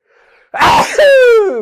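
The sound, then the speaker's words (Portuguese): A man sneezes once, loud and alone: a sharp breathy burst followed by a voiced tail that slides down in pitch. “Saúde! Espirro de macho, rapaz.”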